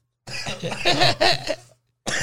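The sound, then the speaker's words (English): A person coughs in a rough, drawn-out bout of a few harsh bursts, then briefly goes silent before another cough starts at the end. “That was a cough.”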